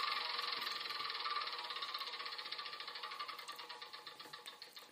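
A wheel spun in a video game gives a rapid rattling run of ticks that gradually slows, the gaps between clicks widening as it winds down, at a modest, even level.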